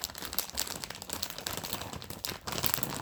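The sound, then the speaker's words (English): Crinkling of a Cape Cod potato chip bag as it is folded up, a continuous dense crackle of plastic with brief dips and renewed bursts of rustling throughout. “I'm folding up some chips, baby.”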